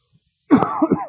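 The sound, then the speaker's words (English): Throat clearing with cough-like bursts from a tickle in the throat. The rough, loud burst comes alone after near-silence, with two short pushes near its end. “a little tickle in my throat. I took a little NyQuil hoping to suppress it. You pray for me. I don't want to distract you with coughing.”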